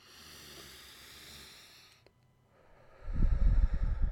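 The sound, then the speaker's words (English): A deep breath is drawn: a low, loud, breathy rush lasting about a second, which comes after a soft tonal background fades into near silence. “let's get into it by taking a deep breath”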